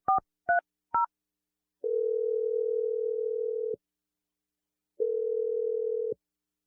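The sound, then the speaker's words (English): Telephone tones while a number is dialed: three short, clipped keypad beeps in quick succession, then two long, steady, mid-pitched tones of about two seconds each, separated by silence, with no voices. “I'm going to dial the number now.”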